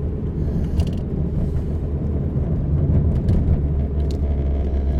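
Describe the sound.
A car's windscreen wiper running during a night drive, heard as faint, intermittent mechanical clicks and scrapes over a steady, loud, low engine rumble, with no voices.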